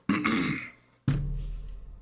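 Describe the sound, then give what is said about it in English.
A woman clears her throat in two rasping, throaty bursts, the second following a short pause. Both are fairly quiet and heard alone. “Sister May clears her throat.”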